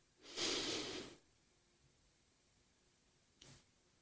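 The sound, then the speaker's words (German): A calm breath drawn in through the nose during a breathing exercise: one broad, airy inhale of about a second, then after a long quiet pause a much shorter, fainter breath. “Atme jetzt ganz ruhig 4 Sekunden lang ein durch die Nase.”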